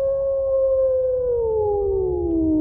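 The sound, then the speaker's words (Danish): A wolf gives one long, sustained howl. It holds a steady, clear tone, then slowly falls in pitch toward the end, over a low background rumble with no talking. “I 2012, der vendte ulven tilbage til Danmark efter 200 års fravær.”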